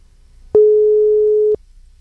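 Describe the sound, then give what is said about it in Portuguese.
Telephone busy signal while a call is being placed: a single steady, mid-pitched beep lasting about one second, rising sharply out of a faint low hum and stopping abruptly. “Pera aí, deixa eu ligar pro Davi aqui, rapidinho.”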